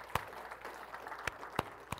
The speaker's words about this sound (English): Give the Lord a hand clap this morning.